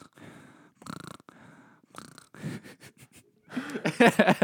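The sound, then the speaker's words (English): A voice imitates heavy mouth breathing with a series of raspy, wheezing inhales and exhales. The breaths grow louder and more strained toward the end. “I feel bad when people breathe like a mouth breather. Yeah. Like you're just sitting there and they're like...”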